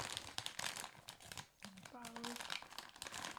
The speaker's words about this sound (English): Hopefully these white truffle ones don't disappoint. Maybe you have to rip that one.